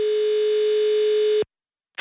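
A telephone ringing tone sounds on a call to a shop that sells iPhones: one steady, clear tone holds for over a second and then cuts to silence, and the next ring starts just before the end.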